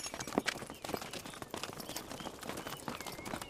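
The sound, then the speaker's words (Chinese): Horses' hooves clip-clop in a dense, irregular clatter of many hoofbeats as riders set off, forming a steady, busy patter throughout. “把马牵过去，把路让开，快点， 跟上，驾驾。”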